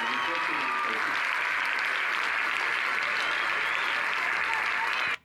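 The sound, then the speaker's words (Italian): Enthusiastic audience applause, a dense, steady wash of clapping that holds at an even level for about five seconds and then cuts off abruptly. “si sente, ecco, un entusiasmo in sottofondo, con anche applausi convinti”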